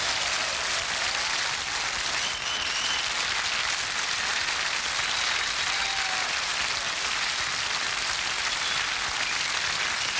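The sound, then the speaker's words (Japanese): Applause from a concert audience welcoming a jazz quartet's drummer during member introductions: dense, steady clapping that fills the whole clip at an even level, with no voices. “一人一人に盛大な拍手をお寄せいただきたいと思います。”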